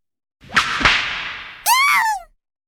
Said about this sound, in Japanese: 本当に思い切りぶってやった。俺も興奮して手加減ができない。尻に鞭の跡が残る。